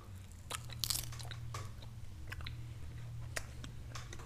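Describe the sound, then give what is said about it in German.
Crunchy beef jerky, crisp and unlike the usual kind, is chewed with many sharp, irregular crunching bites in a steady run of crackly snaps, with no talking. “So, jetzt geht's rein. Sieht auf jeden Fall schon mal nicht aus wie normales Beef Jerky, finde ich ein bisschen, oder?”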